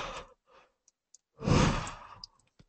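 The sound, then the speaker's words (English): A single drawn-out yawn with a breathy, sigh-like exhale lasting under a second, preceded by a few faint breaths and small clicks. “getting a little yawn out there”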